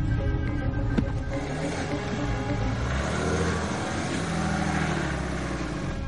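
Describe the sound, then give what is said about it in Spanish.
A car engine runs steadily as the car starts up again and reverses off a forest track onto the road, with a continuous low rumble and a fairly even level throughout. “detiene el coche a la espera de que le sobrepase. Al poco arranca de nuevo y da marcha atrás para salir a la carretera.”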